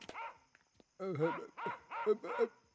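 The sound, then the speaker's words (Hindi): A wild, dangerous dog barking: a short yelp, then several loud, harmonic barks in close succession. “एक जंगली कुत्ता, एक खतरनाक कुत्ता, नहीं जानता किस तरह से इबादत गाह में आ गया।”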